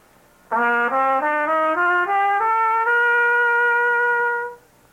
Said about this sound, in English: When we play a melody that way, we call it legato playing. That's when one note is run right into the next one. A scale played that way sounds like this.